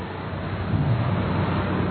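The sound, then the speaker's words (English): Late afternoon traffic on Elvis Presley Boulevard in Memphis, Tennessee, a steady low road rumble of passing vehicles with no clear individual events. “Here's the sound of the late afternoon traffic in Memphis, Tennessee on Elvis Presley Boulevard.”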